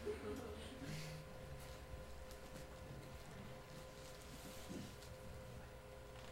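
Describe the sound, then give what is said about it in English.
A voice imitates an oil tanker during a live stage show, holding a steady, low droning rumble with a faint tonal hum that barely changes over several seconds. “This is the sound of the majestic, true champion of the ocean, the oil tanker.”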